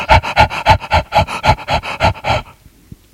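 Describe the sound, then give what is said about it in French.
Laboured breathing comes as many fast, rhythmic panting gasps, loud and evenly paced, that stop abruptly before the end. “Le bruit ressemble à une personne qui a des difficultés à respirer.”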